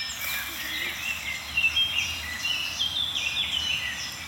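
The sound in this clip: Woodland birdsong from blackbirds, chaffinches and warblers: many faint, high, short chirps and trills scattered over a steady background hiss.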